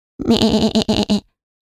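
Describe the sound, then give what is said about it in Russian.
Goats bleat together in one loud burst of about a second: a wavering, nasal cry broken into several quick pulses, heard on its own. “Козы уставились на женщину спокойными глазами, с длинными пушистыми ресницами и одновременно заблеяли.”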